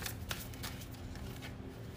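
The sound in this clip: A tarot card flipping over during a card reading: a few soft, brief papery flicks and rustles, quiet and dry, with no talk over them.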